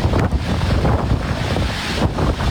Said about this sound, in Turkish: İtalya'nın Sicilya adasını hortum vurdu.